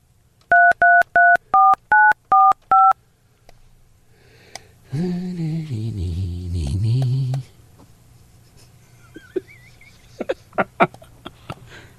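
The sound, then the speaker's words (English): Touch-tone telephone dialing of a long-distance number with a 312 area code: seven crisp two-tone beeps in quick, even rhythm, then a rough noisy burst and a few scattered clicks. “Yeah, I dialed one. 312 area code, right?”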